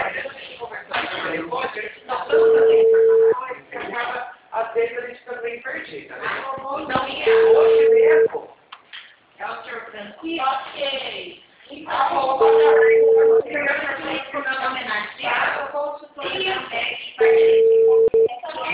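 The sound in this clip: Telephone tone after a dropped call: four steady, second-long beeps recurring at even intervals beneath continuous talk.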